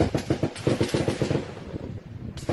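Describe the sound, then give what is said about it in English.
Gunshots fired at a Texas-Mexico border crossing bridge crackle in a rapid, dense string of many sharp cracks, loud at first and then thinning and fading before a final burst. “This is a video of some truckers on that bridge hearing a bunch of shots fired.”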